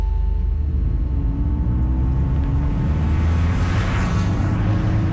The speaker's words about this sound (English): I'm driving down the freeway from my house in LA to the satellite city of Long Beach, California.